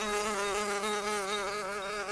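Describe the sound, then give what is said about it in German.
A bee buzzing in flight, a continuous loud drone with a rich, reedy tone whose pitch wavers slightly as it hovers, heard alone. “Ich bin Selma, die coolste Biene hier. Komm mal mit, wir fliegen jetzt in meinen Bienenstock.”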